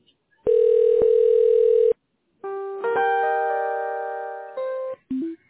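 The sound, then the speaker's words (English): A telephone dial tone hums steadily for over a second, then stops. After a short pause, a series of shifting electronic tones follows as a call is dialed, ending in two brief separate tones. “You'll hear me dialing, but I'll be here on the line.”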